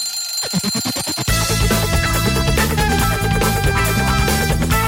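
An alarm clock rings in a quick, rapid rattle for about a second, then loud music takes over and continues steadily to the end.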